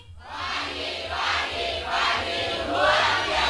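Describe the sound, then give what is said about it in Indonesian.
Audience at a public information commission dialogue event shouting a group cheer chant, their massed voices rising and falling in a series of rhythmic shouted bursts. “boleh ya kita tes dulu semangat teman-teman. Masih ingat yel-yel tadi?”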